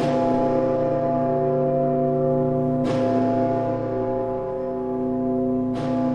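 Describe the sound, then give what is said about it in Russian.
The largest bell of the Rostov Kremlin, weighing about 33 tonnes, strikes three times about three seconds apart. Each heavy stroke leaves a deep, sustained ringing that carries on between strikes. “Колокола Ростовского Кремля, они еще и имена имеют. Самый крупный из них называется Сысой.”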